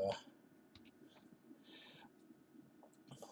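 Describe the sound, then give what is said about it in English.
Computer mouse clicks and keyboard typing: faint, scattered clicks and a short burst of keystrokes over a quiet background. “I'm going to look up right now, so you're about to hear some exciting mouse clicking and keyboard typing on my end.”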